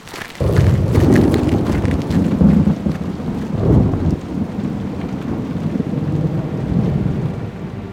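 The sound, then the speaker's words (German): Deep, rolling thunder rumbles loudly through the whole clip over a steady hiss of rain, swelling and easing in long waves without clear breaks. “Donner und Blitz entstehen eigentlich gleichzeitig. Wir hören den Donner aber erst später, weil Schall langsamer ist als Licht.”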